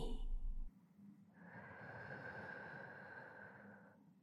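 Slow, drawn-out breathing during a relaxation exercise: a soft, airy breath swells into one long, steady, hissing stretch of air lasting a few seconds, then fades away. No talking.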